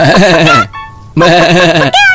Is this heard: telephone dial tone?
no